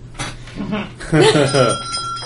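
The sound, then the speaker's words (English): A bell rings as someone walks into a shop, a bright sustained chime that rings on under a talking voice. “There, when I walked in, was there a bell?”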